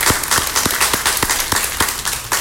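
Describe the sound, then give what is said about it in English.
Applause in a Baptist church during corporate worship: an audience claps steadily, with dense, even patter and a few louder individual claps standing out in a regular rhythm, no talking over it. “Mr. Don and Betty, let's give them a round of applause.”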